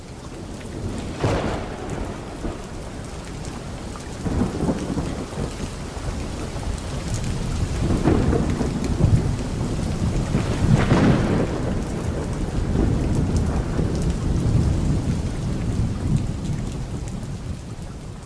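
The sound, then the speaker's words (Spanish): Heavy rain falls steadily through a thunderstorm, a constant wash of drops broken by several deep rolling rumbles of thunder that swell and fade. “Y todo empieza como acaba, con la lluvia.”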